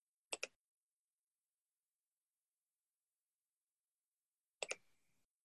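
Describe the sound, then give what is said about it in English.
A computer mouse clicks faintly in near silence: a quick double click, a long pause, then another double click with a short rattling tail. “I might be an honorary member, so let's click yes.”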